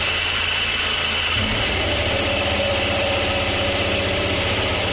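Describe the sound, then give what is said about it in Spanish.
A Ferrari Formula 1 car engine idling at a launch presentation, never revved, giving a loud, steady, unbroken mechanical drone with an even pulsing texture from start to end. “Vale, vamos a oír el Ferrari, porque luego se nos olvida cómo sonaba el otro y no Ferrari.”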